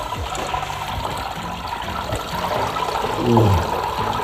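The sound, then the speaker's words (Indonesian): Wet squelching and trickling come from grated coconut mixed with water being squeezed by hand to press out coconut milk. Liquid runs and drips continuously, swelling louder briefly near the end. “Campur kelapa yang sudah diparut dengan air, lalu aduk sampai sari santannya keluar maksimal, baru kemudian diperas. Peras lagi ya.”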